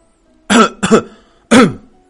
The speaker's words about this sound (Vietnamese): Hắn ho khan một tiếng.